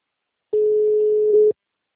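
A telephone line tone after a dropped call: a single steady, mid-pitched beep lasting about a second, sounding alone between stretches of silence.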